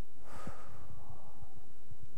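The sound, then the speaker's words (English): A group breathing in and out together during a prayer gathering makes a loud, steady breathy rush with faint pulsing beneath it and no speech. “So today we're going to breathe. And as we breathe together, I want in your head for you to think Spirit in, self out.”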